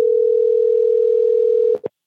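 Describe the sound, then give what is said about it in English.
A steady telephone tone sounds as a call comes in. The tone holds evenly for under two seconds, then cuts off, and two brief bursts follow. “right as this story was almost ready to go to air, I got an unexpected phone call.”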